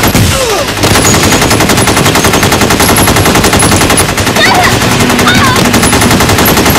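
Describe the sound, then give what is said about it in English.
Loud, relentless automatic gunfire from a bank shootout, rapid shots merging into a dense, unbroken rattle that fills the whole clip with no pause. “Firing non-stop.”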